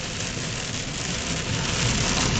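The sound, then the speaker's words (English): Heavy, intensifying rain falls on a car while it is being driven, a dense, steady hiss that fills the whole clip and grows slightly louder toward the end. “I hope you can hear me because the rain has gotten even harder.”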